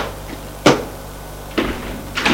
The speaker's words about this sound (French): La porte s'est ouverte.